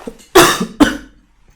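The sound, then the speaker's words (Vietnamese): Two harsh coughs burst out close together from someone who keeps coughing and has to stop reading aloud, the first longer and the second shorter, followed by a faint breathy tail. “Ho quá. Buồn ho quá.”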